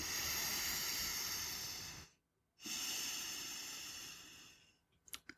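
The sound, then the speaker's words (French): Long, deep breaths from a person resting with eyes closed under a blanket: two drawn-out, loud, airy breaths separated by a short silent pause, then a few faint clicks at the very end. “Je ferme les yeux, je respire.”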